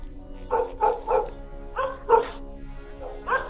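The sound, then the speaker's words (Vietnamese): Dogs bark loudly outside a gate: a run of sharp, mid-pitched barks in uneven bursts separated by short gaps, with no talk over them. “tiếng chó ở ngoài cổng cắn lên inh ỏi như là cất lên những tiếng dài răng rằng.”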